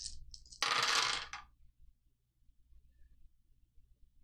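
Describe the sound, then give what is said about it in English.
A large handful of dice rolled at once during a tabletop role-playing game, giving one dense, bright clatter lasting under a second. A few faint ticks come before it, and near silence follows. “It's a lot of dice for them to all come up blank.”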